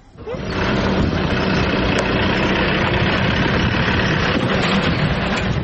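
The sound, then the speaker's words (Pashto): Engine rumble from trucks and cars on a road toward Torkham, loaded with Afghan refugees' belongings. A deep, steady idling drone swells in within the first half-second and then holds at an even, loud level. “سړکونه نن سبا یو ځل بیا پر هغو لاریو او موټرو ډک دي چې د افغان کډوالو کډې پکې بار دي”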